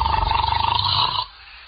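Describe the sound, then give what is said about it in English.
A man snoring, a rough, low, rattling drone with rapid pulsing vibration that stops abruptly, leaving near silence. “must you start snoring as soon as you close your eyes?”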